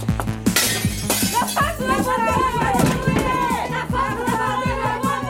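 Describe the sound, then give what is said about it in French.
Window glass smashing during a suffragette protest at a French polling station, where a ballot box is also overturned. A sharp crash of breaking glass bursts out early, then a dense, loud clatter continues throughout under a busy mix of voices. “Tandis que Madeleine Pelletier brise une vitre”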